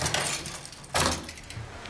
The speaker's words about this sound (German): Ich habe einen Schlüssel.